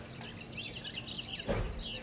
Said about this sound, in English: Helsinki Airport lavatories play birdsong